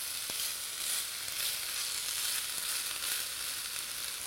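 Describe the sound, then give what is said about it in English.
Peppers and onions sizzle in a tablespoon or two of hot olive oil in a pan, a steady, fairly quiet hiss of frying that holds unbroken with no talk. “My olive oil is hot, so I'm going to get in my peppers and my onions. and give this a toss.”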